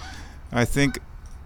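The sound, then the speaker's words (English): Geese honking on a pond where a couple of hundred birds are swimming: two short, harsh, nasal honks in quick succession, fairly loud, followed by a brief high click over a quiet background. “So we got a couple of hundred geese swimming around out here today, all doing honky honk business.”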